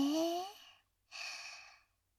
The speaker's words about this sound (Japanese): それでは、深呼吸をします。はい、吸って。